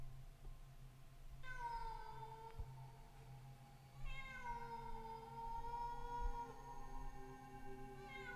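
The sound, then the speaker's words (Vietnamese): A cat meows in long, drawn-out wails. Two clear calls are heard, the second a little louder, and a third begins right at the end, with no talking. “Tiếng mèo kêu, mỗi lúc một to.”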